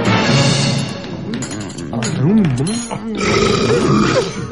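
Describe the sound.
An elderly man lets out a long, loud, rough belch that wavers up and down in pitch over several seconds, layered over other dense sound.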